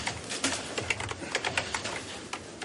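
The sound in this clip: Fingers type on a computer keyboard, many quick, uneven key clicks in a steady flurry, fairly crisp and alone without talk.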